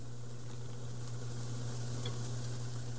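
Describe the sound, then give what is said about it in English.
Julienne carrots sizzle steadily in a frying pan, an even, continuous frying hiss that holds level throughout, with no talk. “Now we've got a nice even layer on our pan. Let's go ahead and grab our carrots. Let's go ahead and add those in.”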